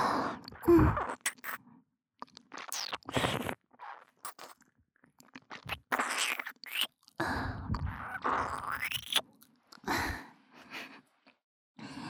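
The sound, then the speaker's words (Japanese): Wet ASMR ear licking and sucking: many irregular slurps, smacks and crackly mouth bursts, some long and some clipped short, broken by brief pauses and varying from soft to fairly loud, with breathy hiss between them. “吸って耳舐めるから。”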